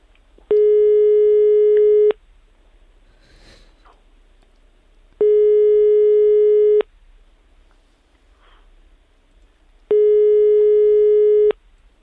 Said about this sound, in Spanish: Venga, segunda llamada, que estamos marcando ya.